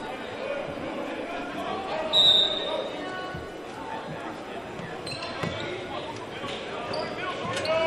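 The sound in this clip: A basketball is dribbled across midcourt during a game, with repeated bounces under a layer of crowd chatter and voices and a brief louder swell partway through.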